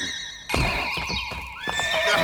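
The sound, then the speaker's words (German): A horse neighs loudly as it jumps quickly back, a tonal whinny starting abruptly after a brief quiet moment and continuing to the end, with a few dull hoof thuds underneath. “Pferd springt schnell zurück.”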